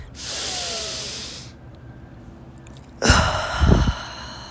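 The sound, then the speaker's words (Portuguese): A deep breath in and out: an airy hiss lasting over a second, then a quiet pause, then a louder, rougher breathy rush with more low rumble. “Sei que dá preguiça de respirar fundo às vezes, mas vamos lá, vai bem fundo. Respira essa energia vital que Deus te deu hoje.”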